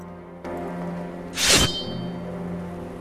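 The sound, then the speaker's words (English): A sword drawn from its sheath gives a single bright metallic swish that rings out briefly over a steady low tonal drone, with no voices. “Gisborne draws his sword.”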